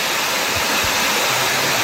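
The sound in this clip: Steady rushing of flowing water in a mountain ravine in Telde, its streams revived by rain after years of drought. Broad, constant noise fills the whole clip, with a couple of faint low knocks partway through.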